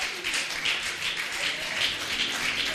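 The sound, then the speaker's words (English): A church audience claps during a sermon, a dense, even wash of many hands at moderate level, heard alone without speech. “Why don't you clap for the Lamb of God?”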